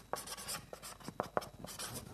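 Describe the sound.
Writing on a piece of paper: a faint, irregular run of scratchy pen strokes and soft scrapes, with no voices.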